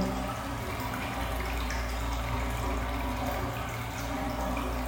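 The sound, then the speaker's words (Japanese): Hot spring water flowing continuously from its source at a Japanese onsen, a steady, unbroken rush and splash that holds an even level throughout, with no voices. “こういう掛け流しの音とかって本当綺麗なんですよね。”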